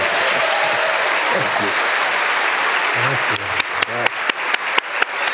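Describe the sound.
Audience applause greets chef Jacques Pépin as he comes on stage at a live cooking event: a loud, dense wash of clapping that settles in the second half into steady, rhythmic unison claps.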